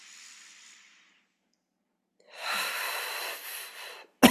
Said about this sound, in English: And take a deep breath in.